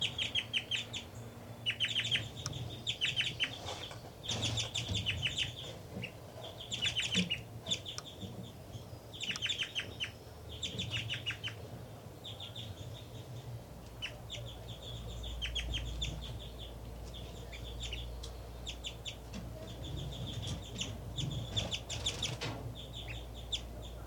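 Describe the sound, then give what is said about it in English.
A parent bird sings while feeding chicks at the nest: repeated bursts of high, rapid chirping phrases, faint and irregular, with quieter calls between them over a low background rumble. “3-3 is now feeding the babies. And she's giving a strange call while feeding. 5-9's flying around giving flight calls. 3-3 appears to be singing while feeding.”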